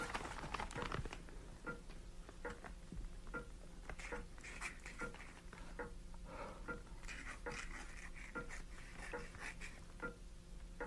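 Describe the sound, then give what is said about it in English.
A deed of gift is written in blood in a dramatised Doctor Faustus scene: many faint, dry scratching strokes of a pen come in short irregular bursts over a quiet background. “But, Faustus, write it in manner of deed of gift. Aye, so I will.”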